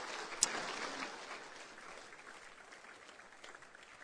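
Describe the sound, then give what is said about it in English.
A church audience applauds to welcome guests to the platform, with dense, steady clapping that starts at full strength and then gradually thins and fades. “would you join me in welcoming Phil and Ellie to the platform this morning? Let's put our hands together.”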